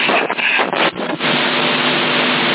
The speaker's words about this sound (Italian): No, sono in macchina